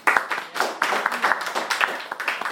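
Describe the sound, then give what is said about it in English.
Hand clapping from a prayer group welcoming a new member, a brisk, moderately loud patter of claps lasting a couple of seconds. “So we welcome you, brother Rosario, and brother Rosario is Sister Priscilla's brother. Yes. Okay, and let's put a hand for him.”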